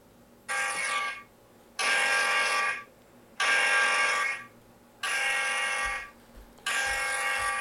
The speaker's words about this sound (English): enrichment points alert. That's what that sound is.